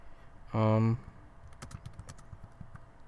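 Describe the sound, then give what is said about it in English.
Typing on a computer keyboard in a small, confined space: a short voiced sound comes first, then a run of many quick, fairly faint key clicks with an uneven rhythm. “This is the problem when you're inside a small confined space and trying to type in stuff.”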